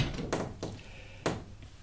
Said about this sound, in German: Kann ich das Fenster zumachen? Ja, mach es ruhig zu.